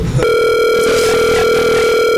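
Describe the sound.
During an outgoing phone call, a telephone ringback tone sounds as one loud, steady electronic tone with a buzzy edge, sustained unbroken after a brief click at the start.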